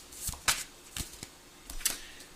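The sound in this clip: Cards being shuffled and drawn from an 80-card tarot deck: a few soft, crisp snaps and flicks spaced apart, faint and heard alone.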